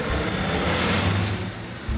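A car driving off fast gives a loud, steady engine roar with a broad, rushing tone that holds for the whole two seconds without clear breaks.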